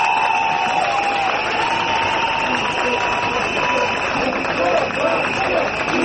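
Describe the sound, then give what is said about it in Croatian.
Crowd noise from a protest of several hundred citizens outside a regional broadcaster's headquarters in Novi Sad. A dense, steady din runs throughout, with shrill, sustained whistling layered over it. “Pištoljke Transparenti i više stotina građana, oni su se okupili u Novom Sadu ispred zgrade uprave radiotelevizije Vojvodine.”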